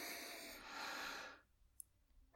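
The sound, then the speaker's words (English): A person breathes out slowly in one long, soft, airy rush that fades away after about a second and a half, leaving near silence. “Now stop. Breathe in.”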